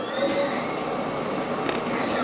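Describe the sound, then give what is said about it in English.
A computer-controlled precision lathe machines a student-designed part with a steady mechanical whir and faint high whining tones, even in loudness and without talk. “Once the program is loaded into the machine, the precision lathe jumps and dances robotically and quickly spits out the part the student has designed.”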